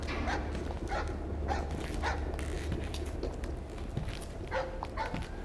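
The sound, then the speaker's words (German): A dog barks aggressively from a Dutch barge moored at the riverbank at Port de Javel. A few sharp barks cut through a steady, loud rumble of background noise. “Von einem holländischen Kahn, der am Ufer festgemacht war, kläffte ein Hund von der bissigen Sorte.”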